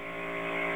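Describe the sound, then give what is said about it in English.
A clothes dryer buzzer drones in a steady, harmonic-rich buzz that holds one constant pitch throughout and stays fairly faint. “I don't know. Is the dryer still on or something? Buzzer. The buzzer. We apologize. I'm not sure what that is. If we could open the dryer door, I think we'd stop it.”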